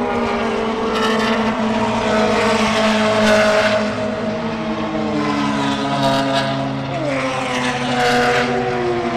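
Race cars running three wide through a corner at a grassroots racing event: a loud, continuous layered engine roar with shifting harmonic pitch that dips briefly near the end.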